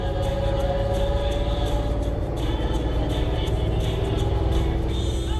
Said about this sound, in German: Liebe Gäste, unser Bus nimmt nun Kurs auf die Altstadt.